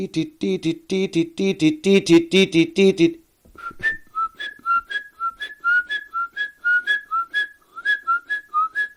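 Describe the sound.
Great tit: harsh, buzzy chattering pulses for about three seconds, then a loud, piercing, rhythmic song of high two-note whistles repeated many times at a steady pace.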